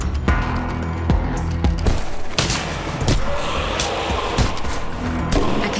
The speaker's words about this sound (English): I notice a shadowy figure on the ceiling still shooting at me.